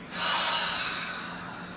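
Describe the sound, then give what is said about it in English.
A long, deep breath drawn in through the nose during a guided meditation, heard as one steady, airy hiss that swells early and then holds evenly, with no talking. “Okay, breathe in.”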